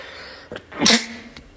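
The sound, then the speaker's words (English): A single human sneeze: a short intake of breath, then a sharp, loud burst that quickly trails off, heard alone without talk. “that was a sneeze”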